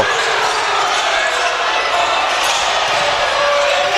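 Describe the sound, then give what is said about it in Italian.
A basketball is dribbled during a professional game between Scafati and Pistoia. The bounces blend into a loud, steady crowd noise that persists throughout. “Creston in palleggio”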